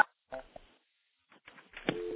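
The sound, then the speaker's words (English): Clicks and tones from an electromechanical telephone switch as 9 is dialed for an outside line: a few short, clicky bursts separated by silence, then a steady low tone sets in at the end. “Now we're going to go into a real electromechanical switch. Now we're going to dial 9 to get an outside line on the switch.”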